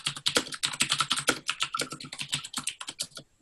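Rapid typing on a computer keyboard, with many quick, sharp clicks in a dense, uneven stream that is fairly quiet and then stops abruptly.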